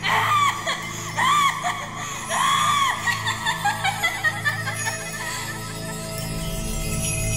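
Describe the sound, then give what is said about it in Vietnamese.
A trapped person screams and wails without stopping inside a closed room, in repeated rising-and-falling cries over a steady low drone, loud throughout. “Người bên trong thì gào thét không ngừng.”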